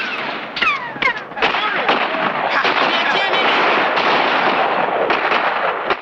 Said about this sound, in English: wary of the flying bullets. He wraps a cloth around the hot rubber hosing and inserts it back into the boiler. A bullet punctures the boiler.